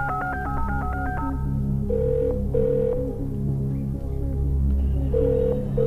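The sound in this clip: A telephone ringing in a film scene, a quick burst of stepped electronic tones followed by a few longer, steady beeps over a low background hum.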